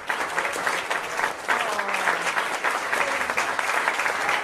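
Crowd applause at a live album presentation: thick, steady clapping runs for over four seconds, dipping briefly near the middle before resuming at full strength, with no speech on top.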